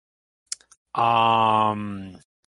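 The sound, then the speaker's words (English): A voice imitates heavy breathing after sprinting down a hallway: a few soft clicks, then one long, loud, voiced gasping exhale that drops quieter near its end before cutting off. “I think I'll just, like, breathe heavily because I just sprinted down a hallway.”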